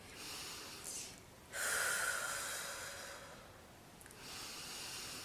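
A very deep breath drawn in while lying in bed for a relaxation exercise, a soft, airy rush of air that swells and then tapers, with further breathy sounds after it, faint and without talk.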